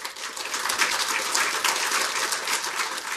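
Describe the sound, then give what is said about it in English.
An audience applauds a guest speaker at an RSA event, dense, even clapping sustained at a steady level throughout. “Please can you join me in giving a big hand to our guest speaker today, Stephen Sloan.”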